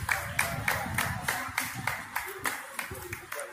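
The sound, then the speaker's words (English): Rhythmic group clapping, many sharp claps in a steady beat of roughly three per second, moderately quiet, with low voices murmuring underneath. “And they're clapping.”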